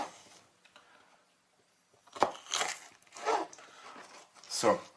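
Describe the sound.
Knife cutting through a bell pepper gives a few crisp, crunchy slices in irregular bursts, quiet overall.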